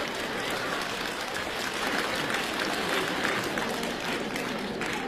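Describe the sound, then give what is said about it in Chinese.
Audience applause at a stage comedy show: dense, loud, continuous clapping that holds a steady level from start to end, with no voice clearly audible over it. “各位还鼓掌呢啊！”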